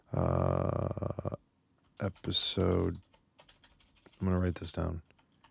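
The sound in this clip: Notes being typed on a computer keyboard, a run of quick, dense key clicks, interleaved with short bursts of a voice.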